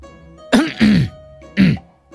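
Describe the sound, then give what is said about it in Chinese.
A man gives a sharp cough, three short, rough throat-clearing bursts with a vocal edge and pauses between them, alone without talk. “殷侯咳嗽了一声，赶忙凑到展昭身边。”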